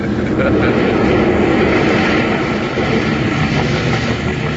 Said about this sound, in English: There we are, on the ground again, pulling right up the runway.